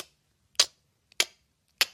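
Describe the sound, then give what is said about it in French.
A voice imitates hand claps on every beat with mouth sounds: three sharp, crisp clap-like pops evenly spaced about 0.6 seconds apart, each preceded by a faint tick. “je le fais avec la bouche, là je ne peux, pas taper dans les mains parce que je tiens le, micro en même temps. Mais euh, donc là, vous allez frapper sur tous les temps.”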